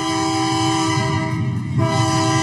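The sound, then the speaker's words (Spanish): Loud, sustained train horn blaring over the rumble of a passing train, a steady chord-like tone held throughout with a brief waver near the end. “Deja que suene el tren”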